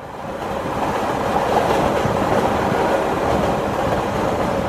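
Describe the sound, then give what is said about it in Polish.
A train rolling along rails on a journey from Paris to Perpignan, a loud, steady rumble with dense rattling clatter that rises at the start and then holds even throughout, with no voices. “I tak z Paryża udaje się pociągiem do Perpignan, miasta leżącego u stóp Pirenejów Wschodnich.”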